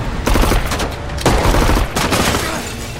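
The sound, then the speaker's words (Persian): Automatic weapon gunfire outside Bank Melli: loud, rapid volleys of cracking shots with a few sharper bursts, continuing throughout without voices. “یه نفر با اسلحه اتوماتیک بیرون بانک ملی تیراندازی میکنه.”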